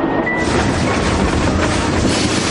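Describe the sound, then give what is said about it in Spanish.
A passenger train travelling on rails near Irkutsk in Russia, heard from inside a compartment as it arrives at a station, a loud, steady, dense rumble and rattle with no breaks. “El tren llega a otra estación.”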